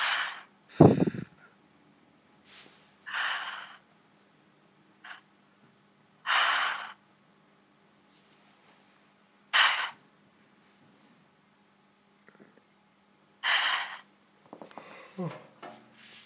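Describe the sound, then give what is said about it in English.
Heavy breaths drawn in and pushed out through the mouth come as several loud, airy bursts separated by long quiet pauses, with a few faint, softer breaths and small noises in between. “Breathe in and out 5 times heavily with your mouth.”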